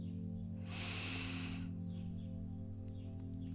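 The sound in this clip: A slow breath drawn in during a guided relaxation exercise: one soft, airy inhale lasting about a second, heard over a steady, sustained musical drone.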